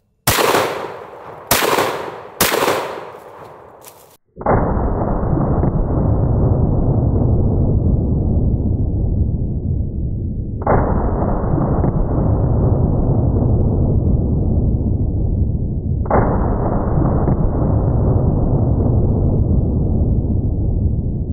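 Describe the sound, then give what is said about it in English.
Three loud gunshots from a single-trigger multi-barrel gun fired at a bear, each a heavy blast trailing into a long rumbling decay several seconds apart, preceded by a few short, sharp crackling bursts. “Okay, well, it looks like we hit the bear, but I'm pretty sure all 3 shots were low.”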